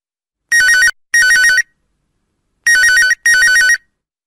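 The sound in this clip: Telephone ringtone for a radio phone-in call: a loud, warbling electronic ring in four bursts, heard as two pairs separated by a short pause, with no voices.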